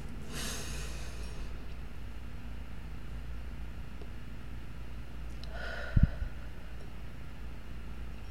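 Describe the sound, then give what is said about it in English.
A worship audience takes a deep breath together: two faint, drawn-out breathy rushes several seconds apart, soft and airy over a low steady hum. “let us take a deep, centering breath together.”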